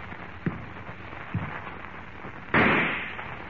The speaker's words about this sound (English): Suddenly, the rifle in Harmon's hands thunders its message of death,